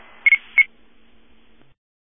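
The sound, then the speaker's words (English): An iPhone crash detection notification sounds as a few short, high-pitched electronic beeps in quick succession over a faint low hum, then fades out. “Where was that iCrash, iPhone notification crash? It's her phone.”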